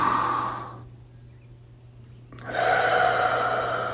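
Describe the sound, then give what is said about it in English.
Deep cleansing breath drawn in through the nose during a guided relaxation exercise: a soft, breathy rush of air, then a quiet pause, then another long breath sound, with no talking. “we'll just take a couple cleansing breaths to get settled in here as we kind of find our body and all that. So if you're going to inhale with me.”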